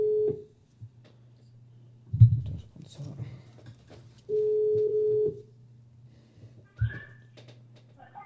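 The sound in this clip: A telephone ringback tone plays while a call is placed back to add someone to a conference call: two steady, low, humming tone bursts separated by a long gap, with a couple of thumps and faint background noise in between.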